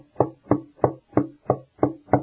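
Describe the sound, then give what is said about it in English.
A prophet raps on a door seven times: evenly spaced, hollow knocks with a steady rhythm and no voices. “Prophet rapped seven times. Seven thunders to wake up the bride.”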